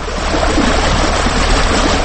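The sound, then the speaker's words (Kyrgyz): Water rushes steadily through a concrete irrigation flume that marks the border between Kyrgyzstan and Uzbekistan in a village. It is a loud, continuous, even roar of flowing water with no voices. “Азыркы ошол лотоктун аккан суудан жалан Кыргызстан пайдаланат.”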